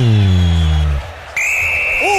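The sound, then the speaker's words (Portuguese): A referee's whistle ends the first half of a football match in Quito. A commentator's voice and crowd noise come first, then one long, steady, high whistle blast sounds clearly over the crowd's hum. “Vilmar Roldan vai apitar, vai determinar o fim de papo no primeiro tempo em Quito”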